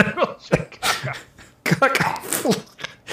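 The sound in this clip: A person coughs and clears their throat as if something is caught in it: a few harsh, ragged bursts separated by short gaps, fairly faint overall.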